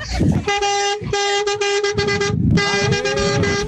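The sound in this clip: Car horns honk on a road early on a Sunday morning. The loud, bright blasts come in several bursts with short gaps between them.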